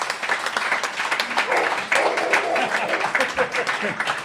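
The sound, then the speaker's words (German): Applause from a live stage audience as a former games-magazine editor is called up on stage: continuous, lively clapping with some voices mixed in and a brief surge of intensity midway. “Applaus!”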